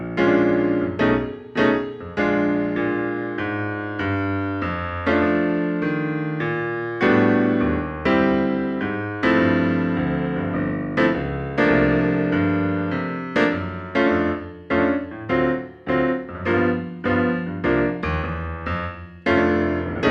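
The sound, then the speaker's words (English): A blues progression played with suspended chords, beginning on the four chord: a steady run of struck chords, each with a sharp attack and a short decay, clear and loud with no talking. “so for measure five, our blues would sound like this. Here's the starting on the four chord.”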